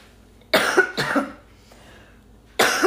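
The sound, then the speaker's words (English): A few harsh coughs and throat-clearing bursts from someone with a tickle in the throat: two close together, then a pause and a third starting near the end, with no talk. “So sorry, I've got a tickle in my throat and no drink to fix it.”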